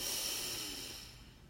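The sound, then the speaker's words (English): A single slow, deep breath: a soft, airy hiss that starts fullest and gradually fades away, heard alone without talk. “Breathe in and out. One last time together. Breathe in”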